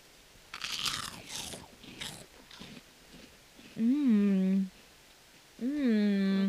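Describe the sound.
Crunching on puffy, airy popcorn snacks: many crisp bites and chews in quick bursts, followed by two drawn-out voiced hums.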